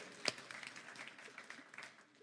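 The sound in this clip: A church audience applauds with faint, steady clapping. One sharp clap stands out near the start before the sound thins out.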